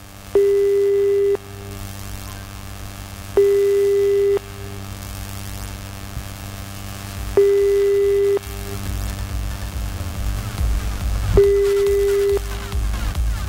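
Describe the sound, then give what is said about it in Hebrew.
A telephone line tone plays while a call is being redialed: four steady, mid-pitched tones about a second long, evenly spaced with several seconds between them, over a low constant hum. “הנה, הוא מנסה שוב פעם לחייג”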